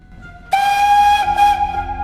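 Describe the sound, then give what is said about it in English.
A train whistle sounds as a train enters a tunnel. A loud, sustained, steady-pitched blast starts abruptly, breaks briefly partway through, then resumes over a low rumble of rolling wheels. “The train enters a tunnel and is plunged into darkness.”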